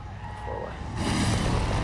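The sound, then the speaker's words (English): A biker gang roars into town on motorcycles, one of them a chopper with tall handlebars. A low engine rumble builds sharply about halfway through into a louder, fuller roar that holds to the end. “Another biker gang roar into town. Short-haired Luther is riding a chopper handlebar bike, which he parks up in front of Shane's.”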